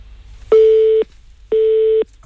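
Phone-line busy tone after a dropped call: two steady, mid-pitched electronic beeps of about half a second each, separated by an equal pause, with a low background hum.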